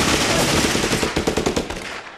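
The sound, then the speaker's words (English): Rapid machine-gun fire rattles loudly and alone: a dense, sustained burst, then a run of sharper, separate shots that thin out toward the end. “Bro, they got machine guns. Just run in there and shoot them.”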